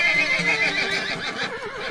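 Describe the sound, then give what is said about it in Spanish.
A horse whinnies in one long, loud neigh lasting about two seconds, its wavering pitch shaking throughout with no voices present. “Pero su historia con el Malacara, así quedó registrado el nombre del equino, venía de antes.”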